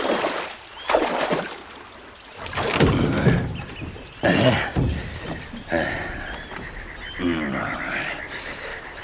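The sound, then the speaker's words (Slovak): Oars splashing as a small rowboat is pulled across water, the boat caught on a shallow sandbank. Several loud, broad splashing strokes come at uneven intervals over a softer watery wash. “Na čo ešte čakáš? Poriadne zaber, nech sme čím skôr za vodou. Loďka uviazla na pličine.”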